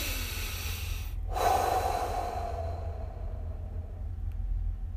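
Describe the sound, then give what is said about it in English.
A single deep inhalation taken as a self-care breathing exercise: a soft, airy rush of breath that swells and then fades, alone with no talking. “I want you to take a deep breath in.”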